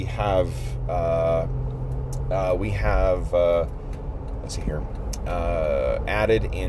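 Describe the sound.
Steady low rumble of a car driving, running continuously beneath someone talking as they record from behind the wheel.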